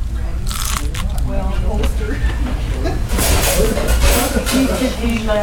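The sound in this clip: Crunchy fried chicken being bitten, its crust giving a series of crisp, crackling crunches followed by chewing, busy and irregular throughout.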